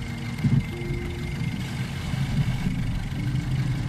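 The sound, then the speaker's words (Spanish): Car engine running while driving, a low, steady rumbling hum with slight swells in loudness and no sharp revs. “Y empiezo a conducir hacia la taberna. Pisando el acelerador, no creo.”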